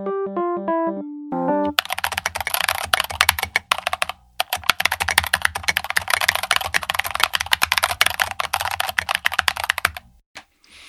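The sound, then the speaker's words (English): Rapid typing on a GMK tenkeyless mechanical keyboard with red box switches and custom SA keycaps: dense, continuous clacking keystrokes for several seconds after a few short melodic tones, stopping just before the end. “Wasn't that sound satisfying? That was the sound of my GMK 10 keyless professional keyboard with Kale red box switches with custom domain SA keycaps installed.”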